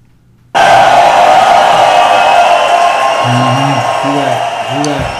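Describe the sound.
Crowd cheering and whooping erupts suddenly at a live show and holds as a loud, steady roar, with a voice talking over it toward the end.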